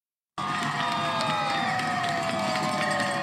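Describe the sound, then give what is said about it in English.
Teachers cheering and shouting in celebration after a deal ended their two-week strike in Newton, Massachusetts: a dense crowd roar with whoops and whistles that begins abruptly after a brief silence and stays steady throughout. “That's the sound of teachers celebrating in Newton, Massachusetts after a deal was reached to end their just over two-week strike.”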